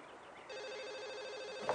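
A telephone ringing with a steady, warbling electronic tone that begins after a short quiet moment and continues evenly. It is fairly faint and heard alone, without talk.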